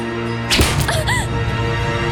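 A single whip crack from a whip bestowed by the Empress Dowager, a quick swish ending in a sharp smack over a steady background hum.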